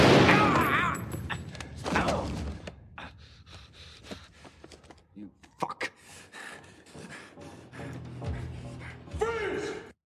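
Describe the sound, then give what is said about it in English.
Gunfire in a tense film hostage standoff, with sharp shot bursts cutting through shouted dialogue, gasps and heavy breathing. “So he does shoot Harry in the leg”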